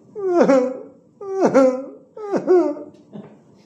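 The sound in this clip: A voice imitates a groaning, wailing cry in three loud moaning calls. Each starts with a sharp downward swoop in pitch and then holds a steady tone, and a faint, shorter fourth call trails off at the end.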